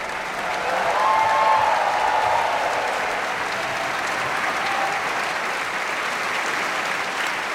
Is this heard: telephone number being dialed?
no